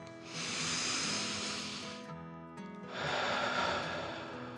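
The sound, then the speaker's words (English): A deep, slow breath drawn in and let out, heard as two long, loud, airy rushes with a short pause between them and no talk. “Billy took another deep dragon breath in and out.”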